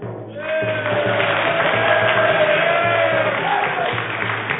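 A studio audience cheers and shouts to vote on whether the seat should be up, a dense, sustained crowd roar that holds steady for several seconds.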